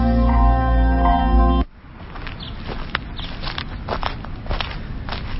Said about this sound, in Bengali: কাঠের বারান্দায় কেউ যেন ভারী কিছু টেনে নিয়ে যাচ্ছে। যে টানছে তার পায়ের আওয়াজ বলে দিচ্ছে সে ভীষণ ক্লান্ত এবং পরিশ্রান্ত।